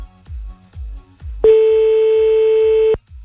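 A telephone line tone sounds while a number is being called: one long, steady, continuous beep lasting about a second and a half that cuts off abruptly, over soft rhythmic bass thumps.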